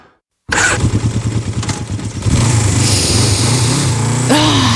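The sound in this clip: A motorcycle engine starts abruptly after a moment of silence, settling into a loud, throbbing rumble before revving harder, its pitch climbing near the end.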